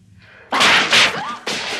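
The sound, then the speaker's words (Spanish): Knife stabbing into a creature's body: a few harsh, forceful bursts of noise with sharp onsets, like fast thrusts and wet thuds, loud and alone without speech. “Escudada en la mesa, se le acerca y lo acuchilla. Clava con rabia el cuchillo en el cuerpo del gremlin.”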